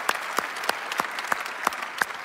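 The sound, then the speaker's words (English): A church audience clapping to welcome new members, heard as seven sharp, evenly spaced claps in a steady rhythm over a low background hum. “And so by applause, would you help me not only welcome them, but affirm the six people that gave their life to Jesus last week. Would you do that? Just help them.”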